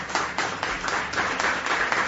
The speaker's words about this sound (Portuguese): Uma salva de palmas para o conselheiro Derblay.